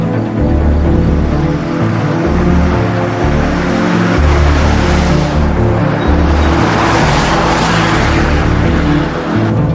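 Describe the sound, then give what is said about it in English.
Car engine droning loudly and continuously as it drives onto an expressway, a deep low rumble joined by a swelling rush of road noise in the later seconds. “She pulls onto an expressway and glances in the mirror.”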